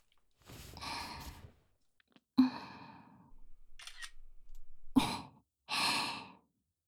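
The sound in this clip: Camera shutter snapping a photo, two sharp clicks set among soft, breathy sighs and exhalations in an otherwise quiet setting.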